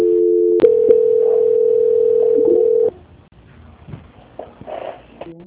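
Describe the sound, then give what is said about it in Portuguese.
A steady telephone tone plays while a phone call is being transferred. It holds one even pitch for about three seconds, then cuts off abruptly into a faint, quiet line. “Transferindo a ligação.”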